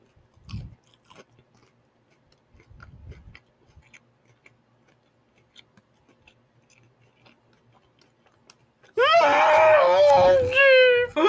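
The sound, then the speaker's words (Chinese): Faint, crisp crunches of chicken wings being bitten and chewed at a first meal after a diet. A few soft, scattered bites are followed by a person talking loudly. “那我们事不宜迟，就开动吧。鸡翅嘛，从这边吃好了。”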